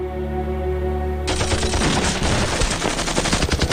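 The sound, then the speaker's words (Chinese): Frenzied automatic gunfire from a rear blocking squad shooting down two commanders in a civil-war battle: a steady low droning tone gives way to a loud, rapid, unbroken rattle of many shots that runs to the end. “话还没讲完，后面的督战队就是一阵疯狂射击，他俩顿时倒在血泊之中。”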